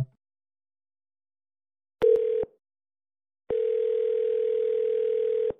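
Telephone dial tone after a call is hung up: a brief steady tone, a pause of about a second, then a longer unbroken tone at the same pitch lasting around two seconds.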